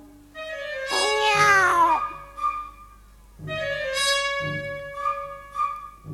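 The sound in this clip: A cat meows a few times: a long, wavering meow that swoops up and then down, then shorter, drawn-out meows after pauses, each fairly loud and with no talk.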